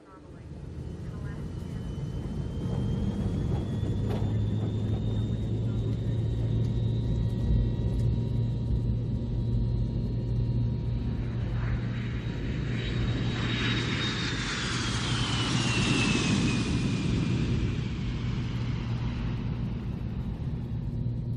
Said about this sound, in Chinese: 现在闭上双眼，我们起飞了。